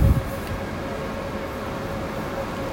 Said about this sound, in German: So, ich bin jetzt hier am Frankfurter Hauptbahnhof.